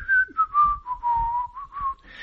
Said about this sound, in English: And the second to last panel, she's standing there whistling.